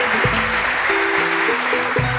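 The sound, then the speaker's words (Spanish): Applause follows patriotic cheers at a community gathering: a dense, continuous clatter of clapping hands at even loudness, with a low tonal sound running beneath it. “Aplauso.”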